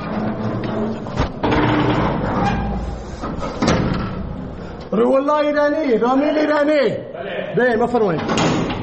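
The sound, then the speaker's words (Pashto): An iron prison door at Herat prison is opened by a guard, with a couple of sharp metallic knocks and scraping in the first seconds, followed by a man's voice calling out loudly. “د هرات د زندان یو ساتونکی د دغه محبس اوسپنیزه دروازه خلاصوي”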